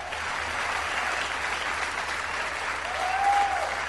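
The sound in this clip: Applause fills the whole stretch: a steady, dense wash of clapping that holds an even level and swells slightly near the end, with no talking over it.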